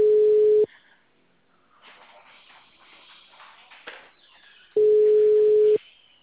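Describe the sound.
Steady ringback tone on a telephone line while the caller dials again: two loud, even low-pitched tone bursts, the first cut off at the start and the second lasting about a second, with a quiet stretch of faint rustling between them.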